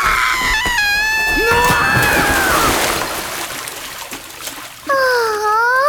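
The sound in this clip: Water splashes and sloshes as someone tumbles into a large pond, amid shouting and screaming voices.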